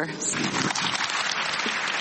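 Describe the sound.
Applause from women attending a summit after a funding announcement, a dense, even patter of many hands clapping that continues throughout with voices mixed in.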